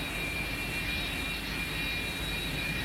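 Private propeller or jet airplanes fly overhead, their engines making a steady, continuous droning roar with a faint high whine, with no voices.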